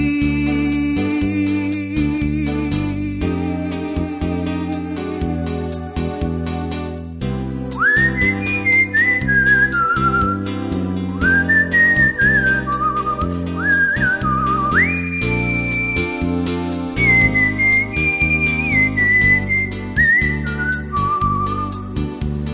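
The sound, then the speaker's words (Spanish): A person whistles a song, a clear, steady melody that starts partway through and carries over sustained instrumental backing, loud and continuous with gliding pitch between notes. “Estoy silbando esta canción pensando en ti.”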